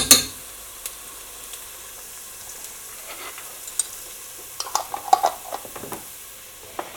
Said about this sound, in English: Now this will splatter horribly when it goes into this hot oil, but I can't help that. I'm going to just use a level teaspoon because we don't want this too hot. And now I'm going to take the heat up.